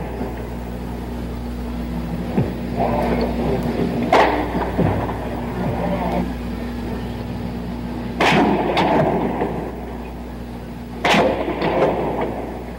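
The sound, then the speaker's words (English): Gunshots fired at a tower above a mall in Austin. A few sharp, sparse reports cut through a steady, noisy background hum. “more sounds, more shots being fired at the tower, on the tower, on the mall, with empty carton shells.”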